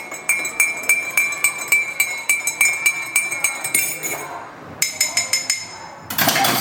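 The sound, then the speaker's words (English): A teaspoon stirs in a cup, giving many rapid, evenly spaced metallic clinks against the sides. A short pause comes near the end before a final louder cluster of clinks. “Well, if that's not a teaspoon stirring in a cup, I don't know what it is”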